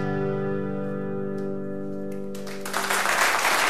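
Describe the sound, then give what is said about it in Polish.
A song on a radio programme ends on a long sustained chord, then audience applause bursts in and fills the last second loudly. “Do końca z oklaskami.”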